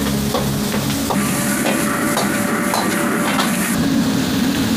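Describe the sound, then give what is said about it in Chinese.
Loud, steady sizzling of pickled chillies and blanched crispy intestines being stir-fried over high heat, with a few spatula strokes against the wok breaking through the constant frying hiss. “我们还会加一些泡椒进行一个爆香，加入我们焯好水的脆肠，大火的翻炒几次。”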